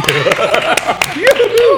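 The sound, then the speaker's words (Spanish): Scattered applause from a studio audience on a television talk show greeting a guest: uneven claps beneath a prominent speaking voice. “Lupita Ferrer, por favor, un aplauso para Lupita Ferrer.”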